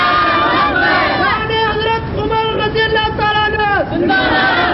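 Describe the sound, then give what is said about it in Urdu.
A crowd chants the takbir, Allahu Akbar, in unison in response to a preacher's call during a religious sermon, loud sustained voices rising and falling in rhythmic shouted syllables. “نعرہ تکبیر”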